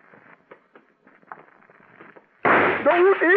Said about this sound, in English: The killer's bullet had crashed into a showcase